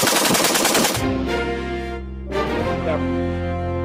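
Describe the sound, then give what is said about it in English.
Rapid gunfire from a semi-automatic weapon fitted with a rapid-fire device: a fast, loud, dense burst of shots at the start, then the firing stops. “The killer used a device like this that turns his semi-automatic weapon into a rapid-fire killing machine, as seen in this YouTube video.”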